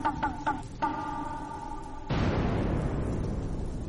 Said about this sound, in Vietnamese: đùng lên một tiếng, rồi hai tiếng, ba tiếng sấm gầm vang lên